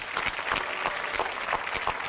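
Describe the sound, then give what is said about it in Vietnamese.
Applause from the audience of a dating show as the guests are welcomed, a thick, continuous wash of many hands clapping at an even, sustained level. “Một tràng pháo tay nữa chào đón tất cả quý vị.”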